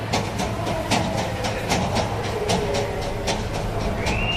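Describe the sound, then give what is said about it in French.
A busy train station with crowds and people wheeling suitcases produces a dense, steady din. Sharp clattering clicks recur throughout above a low hum. “C'est quand même assez bruyant ici, hein. Il y a plein de gens avec leurs valises.”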